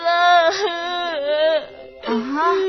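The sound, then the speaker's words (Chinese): Child crying in loud, drawn-out wailing sobs that waver in pitch, broken into a few bursts with brief catches of breath between them. “好了好了，不哭不哭啊。”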